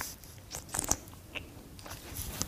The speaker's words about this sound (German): Ich nehme mal einen Schluck